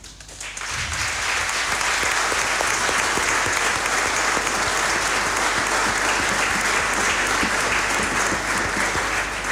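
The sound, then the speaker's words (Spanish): Loud, sustained applause from a church audience, building within the first second and then continuing as a dense, steady wash of clapping for nine seconds. “Invito a toda la comunidad a agradecer con un fuerte aplauso”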